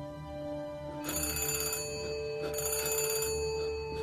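A telephone rings twice. Each ring is a burst of bright, rattling bell tone in a steady cadence, fairly quiet over a constant low hum.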